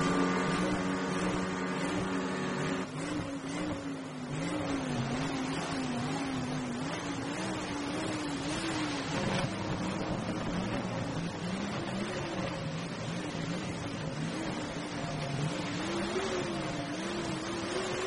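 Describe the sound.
A car engine strains as the driver accelerates to pull it out of a hole it was stuck in. A continuous droning whine wavers up and down in pitch with steady loudness and no talk.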